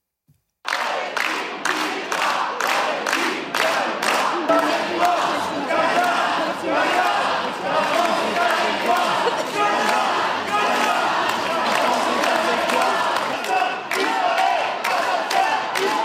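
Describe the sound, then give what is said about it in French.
A crowd of activists chants and shouts slogans against Israel at a protest in France, a dense, loud mass of voices that holds steady for the whole stretch without a break. “où vous allez entendre des militants crier Israël assassin, et tout ça se passe en France”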